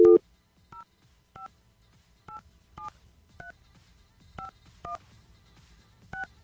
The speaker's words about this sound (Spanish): Vamos a marcar.